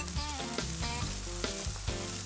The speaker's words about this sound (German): Pimentos aus dem Garten auf den Grill.